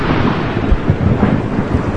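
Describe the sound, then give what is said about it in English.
Thunder from a nearby lightning strike rolls in a loud, continuous low rumble with rain hissing underneath and no voices. “Hey, that was some lightning. That was some lightning out here.”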